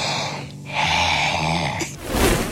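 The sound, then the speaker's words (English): Heavy, rasping breathing of a person asleep, low and loud with a snore-like buzz. It comes in a few long, drawn-out breaths with no talk. “Like you breathe every 10 to 15 seconds. Can you stop that? Can you just breathe less?”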